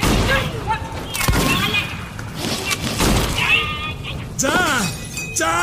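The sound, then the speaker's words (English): Gunfire bursts out in an audio drama shootout as defenders trapped in a house open fire, with sharp cracks and thuds scattered over a steady din, and shouting voices break in near the end. “Okay, now, open fire.”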